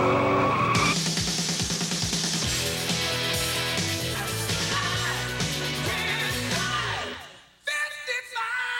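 Tires squeal loudly and continuously as a car, its caster, camber and tire pressure freshly adjusted, drives off with a dense engine roar that fades away near the end before a few brief sharp sounds.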